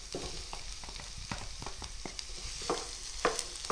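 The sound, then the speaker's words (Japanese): Ground meat and softened vegetables stir-fried over medium heat with a spatula, as a steady sizzle with many scraping, clacking stir strokes, and no talk. “ここからも同じように中火のまま、ひき肉がポロポロになるまでちょっと炒めていきますね。”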